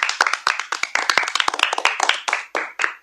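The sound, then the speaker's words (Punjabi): Loud clapping from an audience at a children's recitation event, crisp, sharp individual claps in a quick, uneven rhythm that keeps going without a break. “ਵਾਹ ਸ਼ਾਬਾਸ਼, ਜ਼ੋਰਦਾਰ ਤਾੜੀਆਂ ਬਾਈ।”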